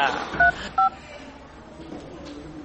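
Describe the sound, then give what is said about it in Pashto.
Keypad tones from a telephone as a number is dialed: two short, clear beeps in quick succession, then a quiet stretch of faint background noise. “ته صبر، چې زه فاروق ته زنګ ووهم”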